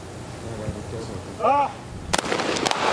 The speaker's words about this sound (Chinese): 命中，尼鲁的这一枪也命中了。